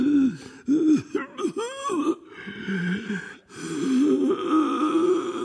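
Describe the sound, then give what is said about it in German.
A man groans and moans hoarsely and inarticulately as an ailing God the Father in a drama. Drawn-out, wavering moans rise and fall in pitch, broken by rough breaths, with no other voices. “Und währenddessen hört man Gottvater unartikuliert rau stöhnen und jammern.”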